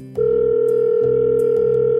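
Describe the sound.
Telephone tone as a call is placed: a loud, steady electronic tone that starts abruptly and holds to the end, with a low, regular pulsing beneath it.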